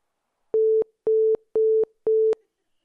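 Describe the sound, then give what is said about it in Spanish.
An answering machine tone for leaving a message: four identical mid-pitched electronic beeps, evenly spaced and fairly loud, with no voices. “Si quiere dejar un mensaje, hágalo después del tono.”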